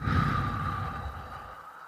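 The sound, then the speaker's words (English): One slow, deep breath during a calm grounding exercise, a soft airy hiss that starts fairly strong and gradually fades over about two seconds. “we're going to take 3 slow, deep breaths. Breathe in. Breathe out.”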